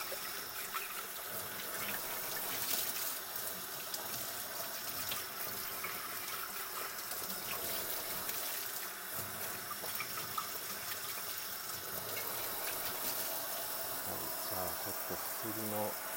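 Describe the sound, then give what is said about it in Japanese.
Cold water runs from a kitchen tap while dishes are washed, a steady faint trickle and splash into the sink that continues unbroken throughout. “冷たい水を使ってるんですけどだんだんやっぱり寒くなってきてお湯を使いたくなってきますね”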